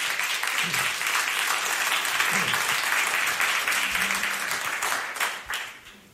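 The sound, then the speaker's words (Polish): Audience applause for musicians at a live concert: a dense, steady clatter of many hands that stays loud for about five seconds, then thins and fades away toward the end. “proszę Państwa, wielkie brawa dla nich.”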